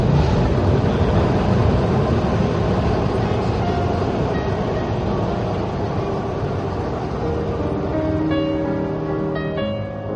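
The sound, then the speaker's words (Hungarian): A train at an underground metro station gives a loud, steady rumble that fills the whole clip. Whining tones rise out of the noise near the end as the level eases slightly. “Talán a Deák téri állomás, ahol most állunk, talán ez ment át a legtöbb változáson”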